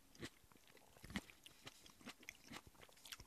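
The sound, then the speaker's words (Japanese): Faint chewing of a purple Premium Violet grape from Tochigi: a few soft crunching bites and moist clicks of the mouth, scattered irregularly and heard alone without talk. “PV、どうぞ召し上がってみてください。 いただきます。紫のやつね。”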